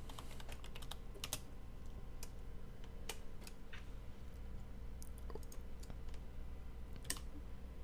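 Sharp, scattered mouse and keyboard clicks on a computer, a few at a time with irregular gaps, over a steady low background hum.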